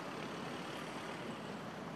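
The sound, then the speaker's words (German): A van speeding off with men inside, heard as a steady, faint rush of engine and road noise with no distinct events. “Sie drücken schnell ihre Zigaretten aus, steigen wieder in den Transporter ein und brausen Richtung Westen davon.”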